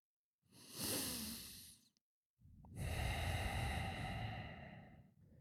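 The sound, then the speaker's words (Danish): A deep breath drawn in a tense moment: one long, breathy rush of air, then a short pause and a second, longer breath that holds steady to the end, with no talk. “5 tog en dyb indånding”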